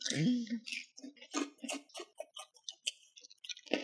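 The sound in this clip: Dry Cookie Crisp cereal crunched between the teeth: a rapid, irregular series of sharp, faint clicking crunches that follows a brief vocal sound at the start.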